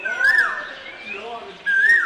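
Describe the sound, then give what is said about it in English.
Birds sing on a quiet, car-free, tree-lined alley on an island, with two bright whistled phrases, one near the start and one near the end, over a faint, low background. “There are no cars here on a quiet tree-lined alley on the island of Gulangyu in Xiamen, just birds.”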